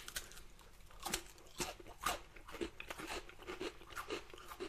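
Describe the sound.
A thick, flower-shaped, crunchy gingerbread biscuit bought at ICA is bitten and chewed. Several faint, crisp crunches break out in irregular bursts, each sharp snap trailing into softer crumbling.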